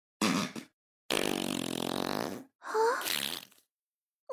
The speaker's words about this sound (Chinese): 不会让你一直休息的，你就一直用我们的臭屁来呼吸吧。 臭，不行，好臭啊！